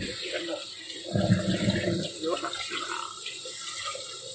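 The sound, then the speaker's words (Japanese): Boiled rapeseed greens are drained into a colander in a home kitchen, a brief burst of splashing, rushing water in the middle that fades back to a low, steady background. “その間に、もう菜の花も茹だっていますので、ざるにあげます。”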